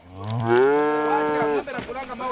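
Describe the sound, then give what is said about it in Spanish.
A cow moos in one long, loud, low bellow that holds steady for about a second and a half. It breaks off into quieter, rougher sounds. “¿puedes hablar con el dueño de esa vaca?”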